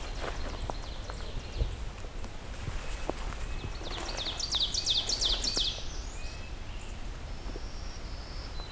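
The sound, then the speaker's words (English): Ovenbird and black-throated green warbler songs in a park: a rapid chanting series of bright, repeated high notes rises out of steady background noise midway, followed by fainter thin high song. “Got ourselves an oven bird. Black-throated green warbler.”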